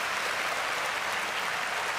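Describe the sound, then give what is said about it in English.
Applause for a choir: a brief, dense wash of clapping at low level, steady throughout about two seconds with no talking. “clap for the choir”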